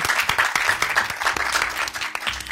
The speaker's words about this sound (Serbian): Aplauz jedan za publiku i za goste.